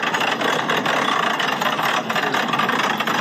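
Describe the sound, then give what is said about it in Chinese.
Engine of a heavy multi-ton vehicle tens of tons in weight, its throttle pressed very gently, giving a steady dense rumble with hissing texture that holds an even level throughout, with no talk. “数十吨重的钢铁巨兽的连接呀、啊！这位驾驶员，这个油门踩的真的是非常的轻柔。”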